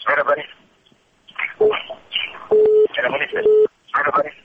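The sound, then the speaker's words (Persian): A telephone line dropping during a radio call-in show: a few steady, mid-pitched disconnect beeps, one short and two longer, interrupt a host speaking. “متاسفانه تلفن از اینا قطع شد.”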